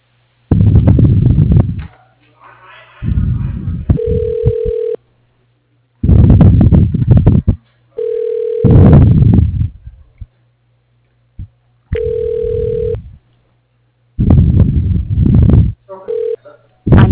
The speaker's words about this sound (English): Transferring to extension 212. One moment, please.